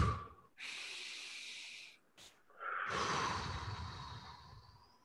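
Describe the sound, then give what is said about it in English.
A deep breath: a long, hissing inhale, a brief pause, then a longer airy exhale that slowly trails off, alone without talk. “Deep breath.”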